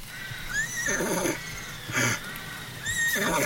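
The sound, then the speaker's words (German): Horse neighing, two long quavering whinnies with a short noisy burst between them, fairly loud with nothing else behind. “Das ist ja ein Wiehen. Es kommt vielleicht vom Ross.”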